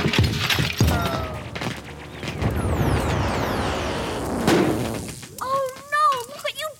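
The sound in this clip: A magic booth is smashed and shatters in a dramatized scene: crashing, thuds and breaking debris are layered with swooping electronic tones, then a voice begins speaking at the end.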